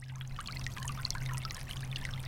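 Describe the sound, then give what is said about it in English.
Running water of a small rivulet in a creek of the coastal plain in southeastern North Carolina, a continuous splashing trickle full of bright bubbling and dripping detail. “There's a little rivulet. Let's go plug it up. It's the sound of the running water that tells the beaver where to plug up that stream.”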